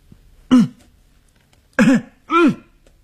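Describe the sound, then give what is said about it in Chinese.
A man coughs loudly three times as he walks toward a staircase: short, harsh, throaty bursts, the first alone, then two in quicker succession. “他咬着牙走过去，他大声地咳嗽。”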